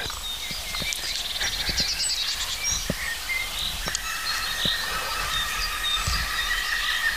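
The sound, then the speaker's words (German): Laughing call of a green woodpecker, a quick run of repeated ringing notes, mixed with other bird calls. “Der Grünspecht lacht uns wieder mal aus.”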